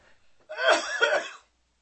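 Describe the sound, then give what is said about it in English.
A short double cough from a man, two rough, breathy bursts in quick succession, fairly loud and heard alone with no talking. “the fact that I had a cough again.”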